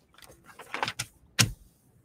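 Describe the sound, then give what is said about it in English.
Paper instruction sheet from an oracle card deck being unfolded during an unboxing, heard as a few soft crinkling rustles followed by one sharper, louder crackle, then quiet. “But what you do is you open it up like a piece of paper,”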